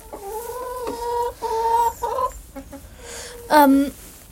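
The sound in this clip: A hen of a green-egg-laying breed clucks on her nest: a run of throaty, tonal clucks and drawn-out calls, ending with a louder, sharper squawk.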